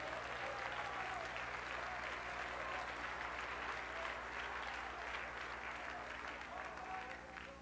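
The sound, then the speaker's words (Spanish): A church audience gives prolonged, dense applause during a worship service. The clapping is steady and continuous for about eight seconds, with voices mixed faintly underneath. “Denle un aplauso grande a Jehová de los ejércitos.”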